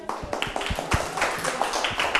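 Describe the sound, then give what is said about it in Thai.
Classroom students clap for a classmate, giving a scattered run of distinct, uneven hand claps with a loose rhythm, some sharper and louder than others. “สงสัยถูกต้องปรบมือให้เพื่อน”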